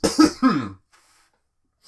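Throat clearing, a short rough rasp in two quick bursts with a low, growling voiced tone, loud and alone, followed by near silence.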